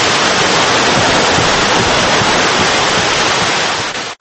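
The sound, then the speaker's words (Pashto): The Kokcha River in Kunduz flowing past its bank, heard as a loud, constant rush of water with no pauses that fades out only at the very end. “د کوکچې سیند دی له منځه تېرېږي، د دې سیند د غاړې څنګ ته”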